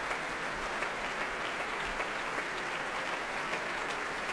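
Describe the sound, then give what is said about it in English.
Applause greets a pianist returning to the stage after a song performance at a concert, a warm, continuous wash of clapping, fairly faint and even in level from start to finish. “thanking the pianist as he comes. And you can hear that reception. Very warm.”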